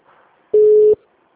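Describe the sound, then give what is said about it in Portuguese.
A telephone call's ringing tone sounds as a single loud, steady mid-pitched beep of under half a second, followed by near silence. “aqui começou a chamar a ligação.”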